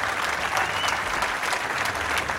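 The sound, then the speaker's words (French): Applause from a studio audience at a radio program taping: a thick, continuous roar of many hands clapping, evenly loud from start to finish with no pauses. “Donc on peut applaudir Stéphane Varupen.”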